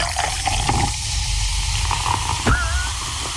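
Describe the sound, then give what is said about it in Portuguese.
Cheap champagne poured after opening, foaming heavily: a continuous rushing, fizzing hiss of liquid filling a glass, fairly loud and steady throughout. “Vou abrir uma champanhe aqui, tá bom? Bora! Deixa eu abrir aqui.”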